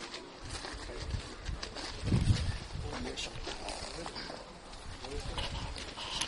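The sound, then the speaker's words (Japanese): Footsteps going down a stairway into the entrance of an underground house, heard as a steady run of soft, irregular footfalls over a rustling, noisy background, briefly heavier near the middle. “今はですね、だんだん、えー、階段で入り口の方に下ってますけども、地中に潜る。”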